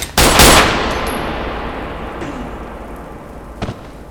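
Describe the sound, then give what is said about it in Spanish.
Pistol gunshots open loud and sharp, with a long ringing decay. A fainter short crack follows near the end. “Con un gesto rápido y certero, el detective apuntó y disparó hacia la fuente del ruido.”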